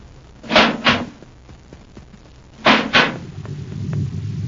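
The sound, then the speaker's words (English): A spaceship's inner hatch opens with two pairs of heavy clunks, each pair a quick double knock, spaced about two seconds apart, followed by a low, steady rumble. “Quick now, open the inner hatch.”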